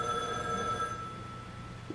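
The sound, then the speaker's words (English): A telephone rings: a steady electronic ring tone holds for about a second, then fades, leaving faint background hum. “Excuse me while I answer the phone.”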